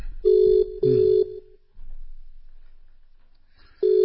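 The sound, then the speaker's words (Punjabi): Telephone ringback heard while placing a call: a steady low-pitched double ring of two short pulses, a pause, then the next ring starting, with no talk. “ਸੂਬਾ ਸਿੰਘ ਜੀ ਹੁਣਾਂ ਨੂੰ ਕਾਲ ਤੇ ਕਰ ਦਿੱਤੀ ਹੈ, busy ਆਦਮੀ ਨੇ ਉਹ, ਕਿਤੇ ਹੋ ਸਕਦਾ ਦੇਰ ਹੋ ਗਈ ਹੈ ਉਹਨਾਂ ਨੂੰ”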